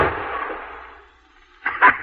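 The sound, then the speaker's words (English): A gunshot fired at chickens: a loud, harsh burst that fades away over about a second, then a few short, sharp bursts. No voices are heard. “Not a bad shot, eh”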